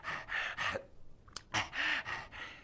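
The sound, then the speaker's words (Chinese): A voice imitates heavy panting for an exhausted fighter in a traditional storytelling performance. Many rapid, rough, gasping breaths come in two bursts with a brief pause between them. “这铁观音站好了，大口大口的喘气，”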